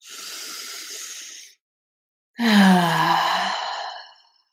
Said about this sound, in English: Invite a deeper breath in.